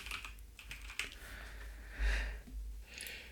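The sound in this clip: Someone types a quick note on a computer keyboard, tapping a few quick, irregular keystrokes that are soft and heard alone.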